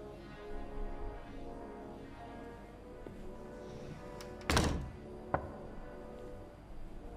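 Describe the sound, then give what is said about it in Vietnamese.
Knocking from inside a coffin whose lid is being nailed shut: a few hollow thuds, with one heavy knock followed by a sharper one, over a steady musical drone. “Không đợi lão hồi phục tinh thần, trong quan tài đột nhiên phát sinh ra tiếng gõ.”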